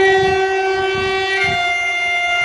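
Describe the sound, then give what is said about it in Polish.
Train station ambience at Warsaw Central station: a loud, sustained tonal drone with steady harmonic layers holds throughout over low rumbling. “Oto na dworcu centralnym w Warszawie pytał Stanisław Perzyna.”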